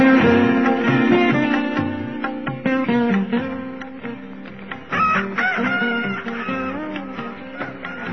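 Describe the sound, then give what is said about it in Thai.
Rooster crowing in a run of drawn-out, wavering cries with bending pitch, several crows following one another at moderate loudness with no talk over them. “เสียงไก่คันทำให้หวนคิดถึงหน้าที่”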